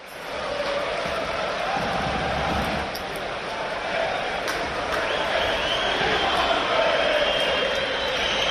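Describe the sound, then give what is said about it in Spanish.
A stadium crowd of Real Sociedad's most radical supporters chants against footballer Antoine Griezmann at Anoeta, a dense, steady roar of many voices that holds for the whole stretch. “En el Atlético de Madrid hay mucho descontento por la poca difusión de los cánticos escuchados anoche en Anoeta contra Antoine Griezmann. Esto tan lamentable que van a escuchar, cantó la parte más radical de los seguidores de la Real.”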